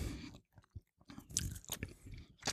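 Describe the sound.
Chewing a yellow fruit gum: soft, wet, squelchy chews in an irregular rhythm, quiet and close, with no talking over them.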